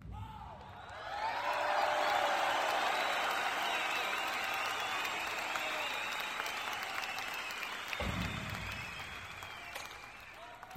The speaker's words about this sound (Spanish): aplausos por favor